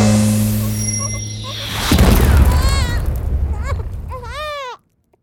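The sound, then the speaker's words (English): An energy blast from a child's tantrum in a fantasy tabletop role-play game, rendered as a sound effect: a loud, deep boom that swells into a rumbling roar, overlaid with warbling, bleat-like squeals before cutting off abruptly. “You all hug and huddle together as the energy blast of the child's tantrum goes off.”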